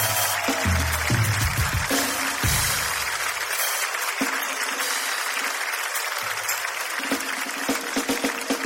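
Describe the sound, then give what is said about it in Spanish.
Sustained audience applause for a guest at a Spanish-language event, a dense, even wash of clapping that carries on for several seconds at a steady level. “Nuestra buena amiga Tula Rodríguez, para quien pido un aplauso, por favor, que nos está acompañando hoy día.”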